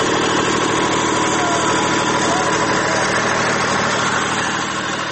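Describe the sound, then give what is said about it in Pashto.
A small generator engine runs steadily, one of those powering a few shops in the Lashkar Gah market. It gives a loud, continuous mechanical drone with a rough low rumble and a constant level throughout. “که هم سولر سیستم اسانه او ارزانه دی، خو په لشکرګاه کې د هرو څو دوکانونو لپاره واړه جنراتوران چلوي.”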